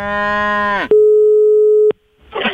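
A cow gives one loud, deep moo whose bellow falls off at the end. A steady electronic telephone tone follows for about a second, then a brief burst of noise.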